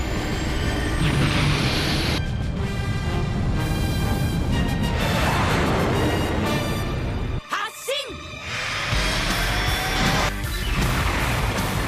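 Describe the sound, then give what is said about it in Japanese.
Sci-fi launch effect of a fighter vehicle: a loud, sustained roaring rush with high whining tones, briefly dropping away with a sweeping tone before the roar surges back. “セルブースター発進。”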